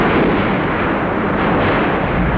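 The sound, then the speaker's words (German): Heavy explosions from the eruption of the Tambora volcano merge into a loud, continuous booming roar. The dense low rumble runs without clear gaps between blasts, and no voices are heard. “Denn im April 1815 erwacht der Tambora mit Macht. Seine heftigen Explosionen sind mehr als 1000 Kilometer weit zu hören.”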